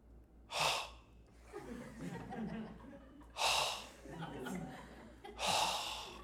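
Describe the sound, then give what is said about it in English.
A voice imitates someone snoring with their mouth wide open: three loud, breathy snorting bursts, each followed by softer rasping breaths. “She falls asleep, and her mouth gets, like, wide open. And she starts going,”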